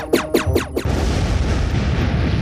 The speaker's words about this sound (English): Oh, great. He's firing at the crate.